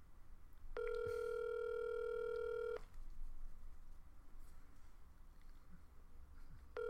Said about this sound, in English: I think it's got one more ring to it, then it goes to voicemail.